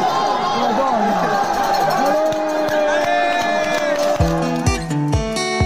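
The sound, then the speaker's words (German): A crowd cheers and chatters as cyclists ride through the Vatican: a continuous wash of many voices, shouts and whoops. The noise stays loud and even, with sharper bursts of cheering near the end. “Und ich glaube, wenn dann die Radfahrer durch den Vatikan fahren, klingt es ungefähr so.”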